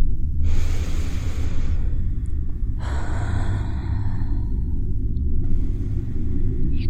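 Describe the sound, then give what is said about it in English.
Someone nearby breathes slowly and heavily in the dark aboard a train, drawing three long, airy breaths over a constant, loud low rumble. “someone else breathing. Is that breathing coming from next to you?”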